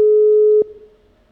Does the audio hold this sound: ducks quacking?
no